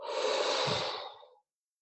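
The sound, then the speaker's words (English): One long, soft breath pushed out through the mouth during a guided meditation. It is a steady, breathy rush lasting over a second, then trailing off into silence. “So just push it out again, breathe in one more time.”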